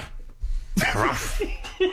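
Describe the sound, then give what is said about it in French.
A person's voice imitates a dog's yapping. There is a breathy, noisy yelp burst, then a shorter second one, both fairly faint, with quiet breath sounds before them. “On commence avec la catégorie animaux, voici le jappement de chien.”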